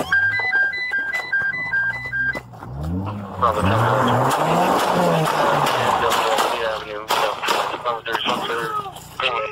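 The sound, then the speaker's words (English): Gunshots ring out in a sheriff's deputy's body camera footage from a stolen-vehicle chase in Texas, sharp loud cracks following a stepped, warbling siren, with voices heard throughout. “Shots fired.”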